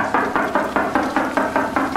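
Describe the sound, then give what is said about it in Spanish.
Knocking on a house door in the evening: a steady run of many evenly spaced, firm knocks at a brisk, even rhythm, with nothing else heard. “Eran como las 7 de la noche cuando toqué la puerta de los Preciado.”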